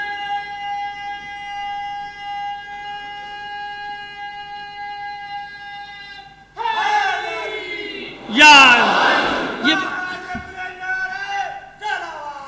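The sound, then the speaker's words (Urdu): A crowd at a religious gathering chants a slogan: a long sustained call is followed by many voices answering in a loud collective shout that peaks and then trails off. “یہ اچھا ہوا کہ نعرہ پہلے لگ گیا”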